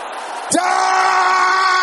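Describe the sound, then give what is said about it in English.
An audience at a prayer service breaks into a loud, sustained shout that bursts in suddenly after a brief quiet and then holds steady and strong. “Can you shout it loud?”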